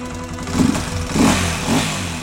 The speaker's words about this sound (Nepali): मेरो पुरानो bike get बाहिर मलाई पर्खेर बसेको थियो